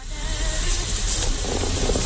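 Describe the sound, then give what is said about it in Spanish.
A coffee pot boiling at full heat hisses and sputters, a steady, fairly loud rush of steam with a fizzing, bubbling texture that runs unbroken. “Aquí está el café bulliendo. Está la cosa muy caliente. Está a tope la cafetera”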